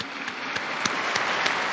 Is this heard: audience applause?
yes